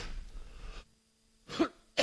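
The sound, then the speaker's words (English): A person coughs into a microphone: a short quiet stretch, then two sharp, loud coughing bursts, the second cut off at the end, with no talking. “Sorry about coughing in the mic.”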